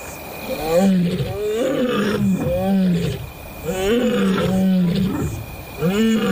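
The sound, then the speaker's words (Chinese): A played-back recording of three adult lionesses roaring: deep, moaning roars and grunts repeat in many overlapping bouts, loud and rhythmic, each swelling and easing off before the next. “布伦特准备播放第二种狮子的吼叫声，这一次不是一只，而是三只成年母狮的吼叫声”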